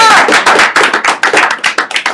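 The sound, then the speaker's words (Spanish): Applause from a small group: loud, rapid hand claps in an irregular patter that gradually thins out toward the end, heard alone without talk. “Un aplauso.”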